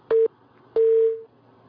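Telephone tones sound as a call connects: two beeps at the same steady pitch, the first short and the second longer, trailing off, with quiet between them.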